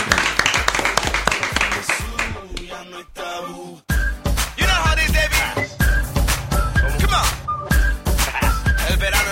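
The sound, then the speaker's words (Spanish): Audience clapping and applause for a guest artist, with dense, steady clapping that continues loudly throughout and dips only briefly. “Un aplauso.”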